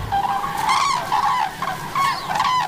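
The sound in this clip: A few nasal honks from a pair of migrating gray-brown geese with their two young, feeding in a freshly harvested crop field. The calls are loud and fairly high, repeating in short bursts with brief gaps between them.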